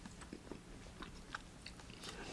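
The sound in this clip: Faint, soft, moist chewing and biting of uguisu mochi, a sticky sweet rice cake filled with bean paste and dusted with green soybean flour, heard as quiet irregular clicks and squelches.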